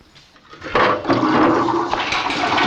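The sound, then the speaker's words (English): A chain-pull lavatory flushing in a police station cell: a soft start, then a loud, steady rush of water that surges in and keeps pouring to the end. “An officer walks along, pulling a lavatory chain by each of the doors.”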